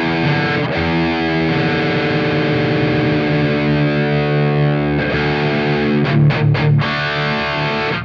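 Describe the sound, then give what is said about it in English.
Distorted electric guitar in drop D tuning, with its lowest string tuned down, rings out in heavy, sustained low power chords. It shifts chords partway through and ends with a few short, choppy stabs. “And then I did something that they call drop D tuning, which is taking the guitar and tuning down the lowest string to make it even lower. So it sounds like this.”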